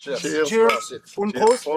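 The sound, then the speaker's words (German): Beer glasses clink in a toast in a small corner pub in Geneva. Brief glassy chinks sound among voices at close range. “Cheers. Und Prost. Im Le Derby, einer kleinen Eckkneipe in Genf, lassen sich vier Männer ihr Feierabendbier schmecken.”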